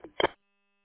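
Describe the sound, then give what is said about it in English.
An incoming phone call beep, two quick electronic blips in rapid succession lasting about a third of a second, followed by silence. “Alright, I'll let you go. I got a phone call coming in.”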